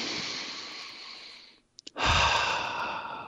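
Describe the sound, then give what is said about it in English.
A deep breath taken close to the microphone: a long, airy breath that fades out, a brief pause with two small clicks, then a loud, full rush of breath. “Let's close with a deep breath.”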